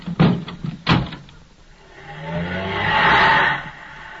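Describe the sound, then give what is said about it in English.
A car drives off: a few sharp knocks at the start, then a pause, then an engine swells into a broad rushing roar that fades near the end. “Well, hop in. I'll drive you home.”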